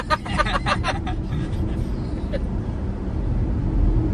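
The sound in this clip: Steady low road and engine rumble inside a car cruising at about 63, a continuous dense hum that stays even throughout, with a voice talking briefly over it at the start.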